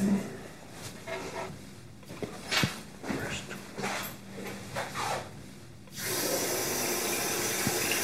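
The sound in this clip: Hands are washed under a running tap: irregular splashing and rubbing bursts of water come first, then a steady, loud stream of tap water flows on its own for the last two seconds.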